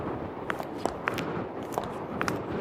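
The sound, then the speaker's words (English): Booted footsteps walk along a road: several soft, slightly crunchy thuds at uneven intervals over a steady, quiet hiss of background noise. “let's get to walking right over there to the dark side of the road.”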